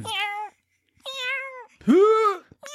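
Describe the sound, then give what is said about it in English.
A person imitates a cat's meow by constricting the throat, giving three drawn-out nasal meows separated by pauses, the third louder with a pitch that rises then falls, and a fourth cut short at the end. “That's my cat. This is my cat noise.”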